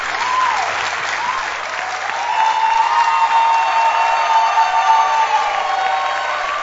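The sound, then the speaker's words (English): Loud, sustained applause from a standing audience welcoming a reverend to the podium, a dense wash of clapping that swells fuller midway and keeps going. “Ladies and gentlemen, please, with a standing ovation, kindly help me welcome to the podium the Reverend Dr. Steve Mensah.”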